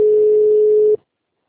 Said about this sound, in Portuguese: Aguarde, sua ligação está sendo transferida.